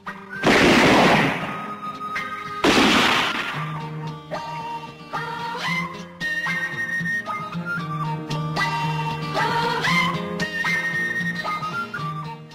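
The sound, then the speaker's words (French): Two loud, broad roaring blasts of a bomb explosion, each a short burst, are followed by sustained tonal music that plays on to the end. “Et qu'est-ce que c'est, d'après toi? Pour moi, c'est une bombe.”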